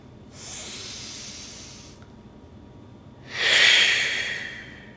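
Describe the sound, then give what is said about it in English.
A deep breath in and out: two long, airy rushes of breath, the second louder and stronger than the first, with a brief quiet gap between them. “Go ahead and take a nice deep breath with me here now.”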